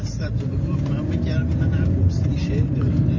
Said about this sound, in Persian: داره رانندگی میکنه. سر تو جاده است